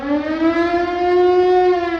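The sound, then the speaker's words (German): Air raid sirens wail across Bremen on a hot August evening in the Second World War, a loud sustained tone with strong overtones that holds steady with only a slight drift in pitch, heard alone without voices. “Um 22.30 Uhr heulen an diesem heißen Augustabend in ganz Bremen die Sirenen.”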